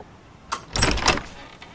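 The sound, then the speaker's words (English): A door opens: a sharp click followed by a short, fairly faint scraping swish that fades quickly. “knocks at a door. Elliot opens it.”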